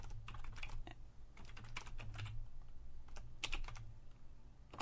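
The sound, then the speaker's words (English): Typing on a computer keyboard: rapid, uneven clicks and taps run continuously in bursts over a steady low hum, with no voices. “I'm trying to type at the same time.”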